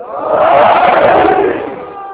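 A crowd shouting the Naara-e-Haidari slogan in unison: one loud, sustained collective cry that swells quickly, holds, then fades away.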